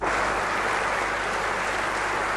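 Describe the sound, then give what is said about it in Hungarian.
Standing applause from members of the Hungarian parliament and leaders of Hungarian organisations from neighbouring countries, greeting the passage of the status law in June 2001. A dense, steady wash of many clapping hands holds at an even level throughout. “Felállva tapssal köszöntötték a képviselők és a parlamentben jelenlévő határon túli magyar szervezetek vezetői 2001. június 19-én a státustörvényt.”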